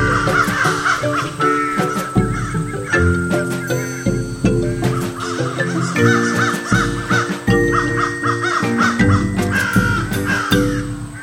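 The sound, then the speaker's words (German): Crows caw again and again in harsh, loud calls that come in irregular bursts, several birds overlapping at times, with no voices heard. “Welches Tier suchen wir? Ich sag es dir. Es ist die Krähe.”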